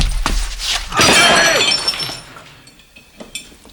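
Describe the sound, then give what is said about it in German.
A muffled gunshot fires from a camera converted into a silenced weapon, and loud glass shatters with a bright, ringing crash that tinkles away over the following seconds. “Was zum Henker war das? Ein zu einer Waffe mit Schalldämpfer umgebauter Fotoapparat.”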